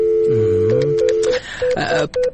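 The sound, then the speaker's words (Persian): A telephone number is dialed as a series of short, clear keypad beeps at a steady pitch, spaced unevenly over a couple of seconds, with a lower warbling tone sounding beneath the first half. “تو باش که به میستر کارتر یک زنگ بزنم”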